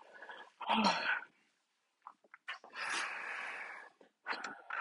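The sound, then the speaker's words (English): A person with allergies blows their nose in a few noisy, breathy bursts. The blows are fairly faint and separated by short pauses. “And I got blown my nose, so hold on real quick. I'm sorry. Allergies”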